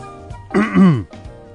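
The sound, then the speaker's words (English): Throat clearing: one short, loud, voiced rasp whose pitch drops toward the end, with a quiet background before and after. “That was just to catch your attention. Actually, I was clearing my throat.”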